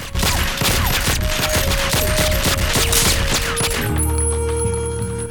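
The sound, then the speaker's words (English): A sustained volley of gunfire as two bodyguards empty their guns into a mound of bedsheets: rapid, loud, densely overlapping shots running for several seconds before cutting off. “Seeing a mound in the patterned bedsheets, they immediately empty their guns into it.”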